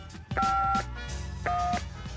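A telephone number is dialed, heard as two steady dual-tone keypad beeps, the first longer than the second, over a constant low background hum.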